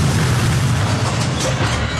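A loud, sustained rumbling boom effect for a four-ton discarded Falcon 9 rocket portion striking the moon at 5,400 miles an hour. A dense, steady roar runs the full two seconds without a distinct onset or fade.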